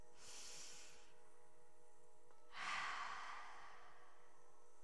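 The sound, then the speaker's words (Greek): A deep breath drawn slowly through the nose and mouth, heard as two long airy, hissing breath sounds separated by a short pause, with no speech. “Βαθιά εισπνοή”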